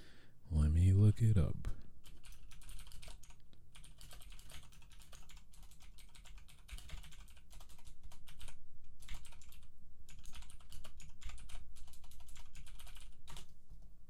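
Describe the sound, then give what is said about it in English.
Fast typing on a computer keyboard, a steady rush of rapid, light key clicks that runs continuously at a fairly quiet level. “Yes, I can type fast.”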